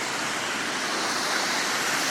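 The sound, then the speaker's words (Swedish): Steady roar of street traffic among cars in Gamlestaden, Gothenburg, a broad, continuous wash of noise with no distinct passing events, unbroken and even in loudness from start to finish. “jag vandrar omkring här i Gamlestaden. Jag har aldrig varit här förut. Det är en massa bilar och stora bruna hus.”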